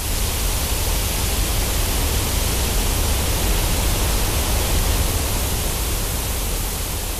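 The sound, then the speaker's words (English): Pink noise, a continuous, even hiss with a deep rumbling body, holding constant loudness throughout with no breaks or voices. “If brown noise isn't your thing, you might want to try pink noise. And it sounds like this.”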